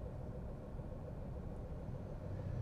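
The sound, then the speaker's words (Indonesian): Quiet car-interior ambience: a steady, low rumble fills the cabin, with no voices and no distinct events. “Terus gue coba akhirnya, dan tau-tau udah sekarang gitu gue lagi bikin podcast di mobil sekarang.”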